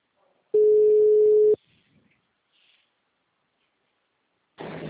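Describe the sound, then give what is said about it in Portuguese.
A telephone busy signal sounds while a call is being placed: one loud, steady mid-pitched tone lasting about a second, then near silence, and a noisier burst begins just before the end. “Tô tentando ligar para ele dar ocupado.”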